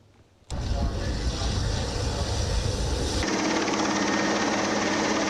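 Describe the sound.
A helicopter hovers to rescue the crew of a sinking ship during the Deniz Aslanı 2026 naval exercise, its loud, rhythmic engine and rotor drone cutting in abruptly and holding steady, with its tone shifting partway through.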